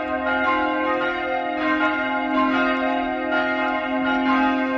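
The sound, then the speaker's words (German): Hand-rung church bells pulled by rope for the midday ringing, a dense steady peal of overlapping tones with a strong low hum and repeated bright strikes throughout, loud and alone with no talk. “Per Seilzug werden sie, wie in alten Zeiten, weiterhin noch von Hand geläutet. Das Mittagsläuten aus Utting von Michael Mannhardt.”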